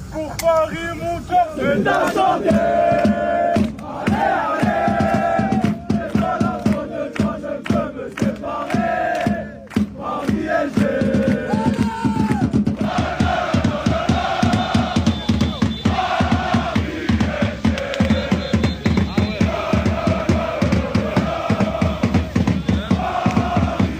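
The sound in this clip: PSG Ultras football fans chant together at an airport at night as the team arrives home: loud, continuous massed voices sing a rhythmic chant in unison, with sharp percussive hits throughout.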